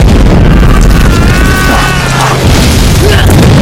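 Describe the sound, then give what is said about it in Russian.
A fighter plane flies low over a trench and fires a machine-gun burst, producing a loud, dense roar and booming rumble that fills the whole clip without a break. “Пролетающий истребитель пресекает окоп пулеметной очередью.”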